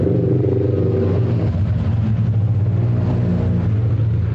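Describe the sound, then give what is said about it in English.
Motorbikes riding through the hills on a sunny day make a continuous low engine rumble with a slight rattling clatter, holding fairly even loudness throughout. “I'm sitting outside to catch the sun, and I'm also catching the motorbikes There's lots of people on motorbikes here riding through the hills on sunny days.”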